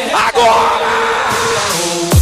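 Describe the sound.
Women in a live party crowd at a DJ event in Outeiro scream and yell loudly and without a break, with steady tones sounding beneath the voices.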